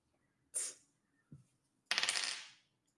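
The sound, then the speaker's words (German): Dice are rolled for a dieselpunk warplane tabletop role-playing game. Three quick, bright clattering bursts are heard: a short rattle, a faint lower knock, then a longer rolling clatter that fades out, all fairly quiet with no talk. “Würfel bitte einen Kurvenkampfwurf.”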